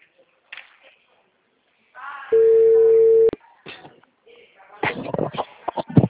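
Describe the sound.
A telephone call tone while waiting for an answer: a single steady, pure electronic beep about a second long, with quiet rustling before it and people talking after.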